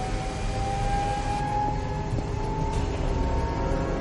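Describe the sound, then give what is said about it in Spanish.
A turbine, hoists and overhead cranes start up in a factory hall, producing a loud, continuous mechanical drone with a thin, sustained whining tone that holds steady over it throughout, and no voices. “Acciona una turbina. Los polipastos y puentes grúa de la nave se ponen en marcha.”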